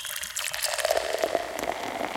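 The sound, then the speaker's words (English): Tea is poured into a jar holding some rot. A faint, continuous splashing trickle runs steadily for about two seconds. “Now I'm pouring some tea on it.”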